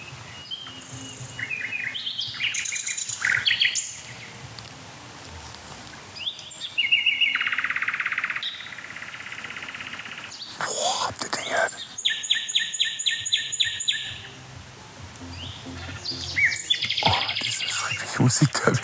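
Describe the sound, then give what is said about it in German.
Nightingales singing: loud, varied bursts of chirps, whistles and rapid trills that come in several phrases separated by short pauses. “Aber ich habe gerade das Gefühl, dass die Nachtigallen jetzt so richtig in Fahrt kommen. So richtig aufdrehen.”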